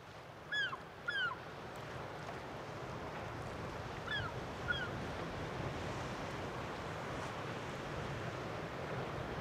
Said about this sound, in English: Well, it's getting choppy now and the wind is coming up.